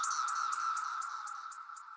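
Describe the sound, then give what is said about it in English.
Cicadas sing in chorus: a steady high insect drone with a rapid, regular pulsing buzz layered over it, fairly faint throughout with no voices. “make it about 96 decibels, which is on par with a rock concert. That's the music of a cicada symphony.”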